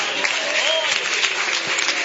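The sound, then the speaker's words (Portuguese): Applause from a church audience during a service, a dense and even patter of many hands lasting about two seconds, with a few voices calling out within it. “Uma salva de palmas para o Senhor.”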